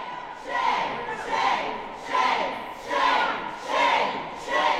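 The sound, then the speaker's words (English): Protesters at a Georgia Senate committee hearing on an abortion bill shout in unison. The chant rises and falls in a steady, repeated rhythm of loud crowd bursts, roughly one per second. “When a bill that would give Georgia the toughest abortion laws in the country moved out of a Senate committee Monday, protests were loud and to the point.”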